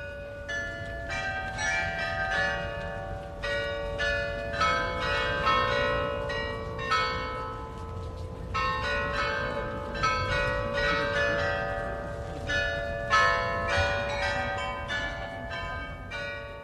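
Carillon bells of the new town hall in Freiburg ring out a continuous melody of many bright, high-pitched strikes whose sustained tones overlap, heard alone without voices.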